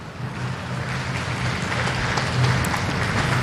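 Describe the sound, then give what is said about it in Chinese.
Applause drifts over from a neighbouring snooker table at the end of the Murphy versus Un-Nooh match, a soft, rain-like patter of clapping that swells slightly in its second half. “旁边的掌声是送给莫菲和桑卡姆这场比赛的，十局比赛战罢，桑卡姆六比四战胜了肖恩莫菲”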